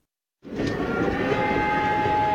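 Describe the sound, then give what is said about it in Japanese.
A train whistle starts abruptly and holds a steady blast, with faint tonal lines over a broad rushing train noise. “てか汽笛鳴ってる？”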